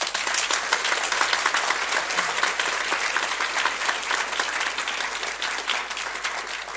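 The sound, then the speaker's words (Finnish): Sustained audience applause for the director of a stage performance, a dense, even wash of many hands clapping that stays loud and steady from start to finish. “Ja isot kiitokset ja isot aplodit meidän ohjaajallemme Evelina Stolpille.”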